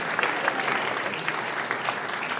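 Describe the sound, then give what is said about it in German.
Audience applause for a musician at a polka performance, a dense and even rush of many hands clapping, loud and steady with small flickering peaks and no pause. “das hat sich einen extra Applaus verdient.”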